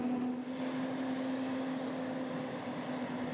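Faint, steady engine drone of a tractor driven by a farmer during forage-harvester work on a farm: a constant low hum with a single held tone and no change in pitch.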